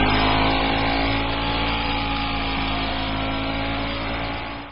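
A moped revs and rides away, giving a dense, steady engine drone that stays loud for most of the stretch and then drops off at the very end.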